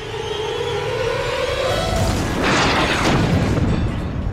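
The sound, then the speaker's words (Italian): An explosion of a rocket-propelled grenade on a bunker roof: a loud, broad rushing boom that swells about halfway through and lingers over continuous heavy noise. “All'improvviso sento un'esplosione provenire dalla sommità del bunker. Non ero sicuro cosa fosse, ma vedevo gli sguardi nervosi dei miei compagni. Ho sentito qualcuno dire che sembrava l'esplosione di una granata a propulsione.”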